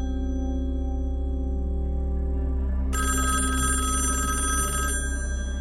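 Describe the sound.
A wall-mounted telephone rings during breakfast in a spacious living room, one bright burst of electric bell ringing over a steady low tone, lasting about two seconds before it stops.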